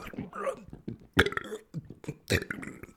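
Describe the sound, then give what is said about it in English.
A man's voice imitating a man burping: two loud, rough belching bursts set among muttered talk, with softer throaty sounds between them. “the whole time, the guy's just disgusting me, right? He's burping, right?”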